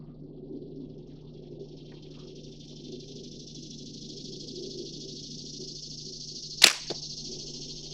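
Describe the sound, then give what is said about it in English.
An arrow shot from a bow at a target gives one sharp, loud snap. A fainter tick follows a moment later, over a steady hiss and a low hum. “And now I'm finna shoot.”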